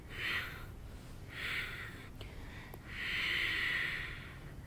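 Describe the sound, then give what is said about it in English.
Soft breathing during a yoga practice, with three quiet, airy exhales spaced apart. The third exhale is noticeably longer and fuller than the first two, with near silence between them. “You're breathing out as you lift up. Yeah, and practice. It's the exhale, exhale, exhale.”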